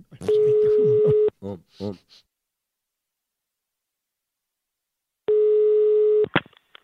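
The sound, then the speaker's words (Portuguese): A telephone dial tone sounds while a call is being placed: a steady, flat, mid-pitched hum lasting about a second, followed by a few brief sounds and a long silence, then a second identical one-second tone near the end. “E agora eu vou ligar pra Wanda”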